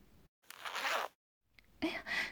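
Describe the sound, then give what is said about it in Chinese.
A clothing zipper is pulled open in two rasping strokes separated by a brief pause, both fairly quiet. “让我帮你把你的拉链拉开”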